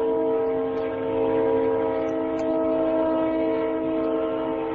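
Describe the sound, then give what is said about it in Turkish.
A passing train sounds its horn in one long, loud, steady multi-tone blast that lasts the whole time, over a low rolling rumble. “Tren geçiyor.”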